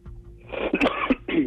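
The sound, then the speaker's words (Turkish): An adult coughs while recovering from a recent illness: a few harsh, throaty bursts, each short and abrupt, then a slightly longer final cough. No other sound is heard between them. “Taze bir hastalıktan çıktığımız için öksürüyorum.”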